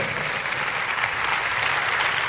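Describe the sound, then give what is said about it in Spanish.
A crowd applauds during a sermon with dense, steady clapping that holds at an even level throughout without pause. “Dáselo a Jesús, porque si alguien merece un aplauso es nuestro Salvador y Señor.”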